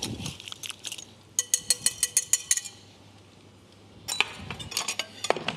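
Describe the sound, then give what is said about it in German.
A spoon stirs a marinade of olive oil and sea salt in a bowl, clinking against the sides in a quick run of regular taps, then softer scraping and clattering. “So, das Ganze wird verrührt und dann bestreichen wir das auf dünne Speckscheiben.”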